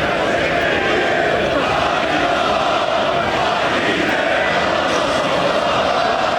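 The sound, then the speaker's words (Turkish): Dense crowd roar of football fans in Erzurum celebrating the yellow-and-red club's fourth straight and 26th league championship. The cheering is loud and continuous, with voices mixed into the steady din and no breaks. “Sarı kırmızılılar üst üste 4. toplamda ise 26. şampiyonluğunu ilan edince tüm yurtta olduğu gibi Dadaşlar Diyarı Erzurum'da da taraftarlar şampiyonluğu coşkuyla kutladı.”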